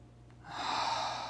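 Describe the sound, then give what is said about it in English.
One deep breath during a guided relaxation exercise: a soft, airy rush that swells after a quiet start and holds steady to the end, with no talk. “take a deep breath in through your nose and out through your mouth, take another one.”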